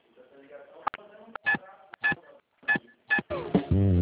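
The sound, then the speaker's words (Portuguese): Phone keypad tones entering a four-digit password on a bank's automated phone line: a few short, clear beeps separated by pauses, with a recorded voice speaking around them. “Digite sua senha de 4 dígitos.”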